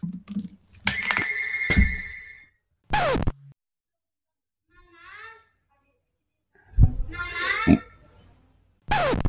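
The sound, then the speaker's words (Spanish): A telephone ringing with a buzzing electronic ringtone whose tone holds steady for about two seconds, followed by short bursts of voices with pauses between them. “Anda, mira, te llama. Me llaman por teléfono.”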